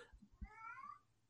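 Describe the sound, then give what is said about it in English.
A single faint cat meow inside a house, brief and tonal, preceded by a couple of soft low thumps. “If you hear meowing in the background, we're going to have animals also through in the house.”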